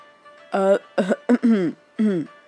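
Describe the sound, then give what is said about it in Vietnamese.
Light coughing or throat clearing, voiced by a narrator: a few short, husky bursts in quick succession with brief pauses between them, fairly loud and alone. “Long Thiên Tuyệt ho nhẹ, biết mình đùa đã hơi quá”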